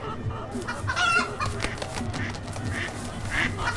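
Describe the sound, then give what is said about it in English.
Duck quacking from an animal-sound video game: a few honking, fowl-like calls over a dense, busy bed of game audio that holds fairly steady throughout. “Whoa! Well, we have a duck already.”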